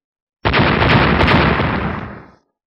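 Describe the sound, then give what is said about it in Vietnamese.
Explosion of a powerful energy attack striking and bursting a spaceship hull: one loud, sudden blast that roars for about two seconds before fading away. “Năng lượng đáng sợ công kích thẳng vào thân phi thuyền bị vỡ ra.”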